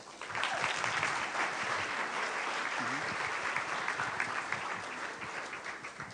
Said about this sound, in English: And so let me hand it over and let's give a big hand to Andy Cook.